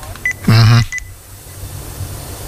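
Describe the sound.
Telephone keypad tones sound as 411 is dialed for directory assistance. A few short beeps come in quick succession, one of them longer and louder than the rest, over a low steady hum.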